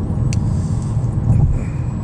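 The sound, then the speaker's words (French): Steady low rumble of a car driving on a road with potholed lanes as it moves into the left lane, a dense, even road noise without clear surges. “Fait qu'on va s'en retourner dans la voie de gauche et on va accélérer de quelques, quelques kilomètres.”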